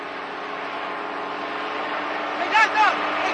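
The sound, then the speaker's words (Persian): Steady engine rumble of a minibus driving past a carpentry workshop: a broad, even drone throughout, with a couple of brief higher tones near the end. “مینیبوسی از اینجا میگذره، میخواد با اون برگرده به روستا.”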